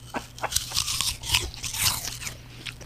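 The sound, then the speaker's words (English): Two people bite into a firm, juicy apple. Many sharp, crisp crunches and wet chewing sounds follow in an irregular rhythm, with no talking. “So if we can just observe a moment of silence while we both bite into the apple.”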